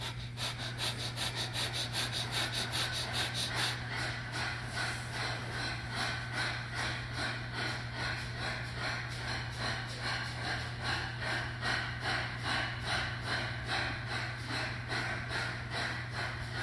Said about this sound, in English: Begin breath of fire.